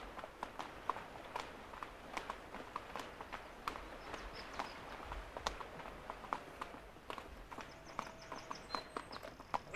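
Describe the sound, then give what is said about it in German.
Horse hooves clip-clop as a horse is ridden along a path beside a river. Many soft, irregular hoof strikes come in a walking rhythm, faint and continuous, with no talking over them. “Und Lauscher will es scheinen, dass sein Herr Barlow nur deshalb in diese Richtung reitet, weil eben hier ein Weg ist.”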